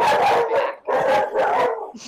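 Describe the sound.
A dog barks in a few loud, drawn-out, howl-like bursts with short gaps between them, heard alone without talking.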